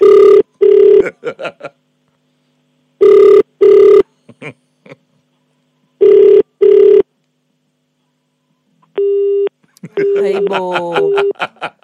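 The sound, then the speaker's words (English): Telephone ringback tone as a call is redialed: three double rings at even intervals, loud and clear against silence. A short steady tone follows, and a voice is heard briefly at the end. “Let's call him again. All right, let's call him again. Let's dial him back.”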